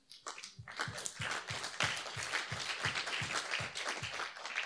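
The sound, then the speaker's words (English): Congregation clapping at a church service, a steady even rhythm of claps around two per second, moderately loud and sustained with no talk over it. “if you all won $1 million right now, you'd be clapping louder than that.”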